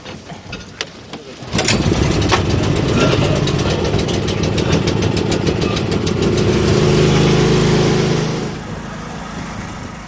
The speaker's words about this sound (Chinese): 发电机得拉起来